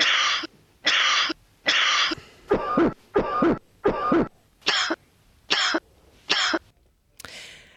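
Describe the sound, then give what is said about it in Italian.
A long series of sharp, dry coughs, each a brief harsh burst evenly spaced with short pauses between, some carrying a hoarse, throaty rasp, with no talking. “abbiamo anche una differenza tra la tosse secca e la tosse grassa. Io direi, se in regia mi mandano la tosse secca, l'ascoltiamo.”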